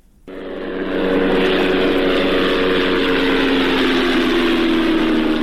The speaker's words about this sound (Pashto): دا د هغه بي پيلوټ الوتکې غږ دی چې پر افغانستان د طالبانو له حاکمیت څخه وروسته هم د غزنی ولایت تر څنګ د پکتیا، پکتیکا او ځینو نورو ولایتونو په هوا کې ګرځي.